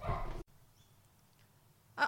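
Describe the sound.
A fierce female dog barks at someone walking past the house: a loud, rough burst of barking at the start, a stretch of near quiet, then one more sharp bark.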